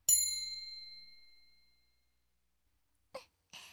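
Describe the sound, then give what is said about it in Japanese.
A bright magical chime rings out for a silence spell: one clear, ringing strike that fades slowly over almost two seconds, followed after a pause by two short, soft bursts. “沈黙の魔法をかけるわ。”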